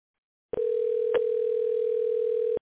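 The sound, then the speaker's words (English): Telephone dial tone heard while a call is being dialed: one steady, clear, loud tone lasting about two seconds, broken once by a very brief interruption. No voices are heard. “No, we're dialing. Yeah, we made contact.”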